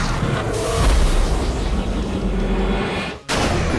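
Loud, rumbling explosive blast of a Chaos Blast attack hitting in a video game battle, a sustained heavy boom that cuts out briefly near the end before resuming.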